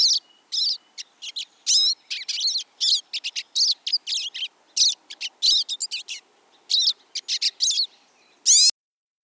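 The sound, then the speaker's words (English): Pine siskin song: a rapid series of many short, high, buzzy chirps and twitters in quick bursts with brief gaps, loud and clear with no voices. “Which is a pine siskin.”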